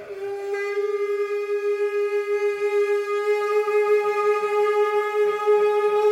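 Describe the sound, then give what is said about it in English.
A kangling, the Tibetan Buddhist ritual horn made from a human thigh bone, blows one sustained, steady mid-pitched note rich in overtones for about six seconds, heard alone with a slight wavering in loudness. “That's the sound of a congling, which is a horn used in certain Tibetan Buddhist rituals. Traditionally, conglings are made from human thigh bones.”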